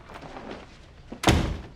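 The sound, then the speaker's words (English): A door closing with a single solid, low thud after a stretch of faint rustling and movement. “retrieves her bag and leaves, closing the door.”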